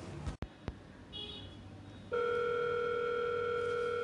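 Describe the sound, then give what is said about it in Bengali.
A telephone ringing on the line after dialing: a few faint clicks, then a steady ringing tone that starts partway through and holds evenly to the end at a soft level. “Ring বাজলো”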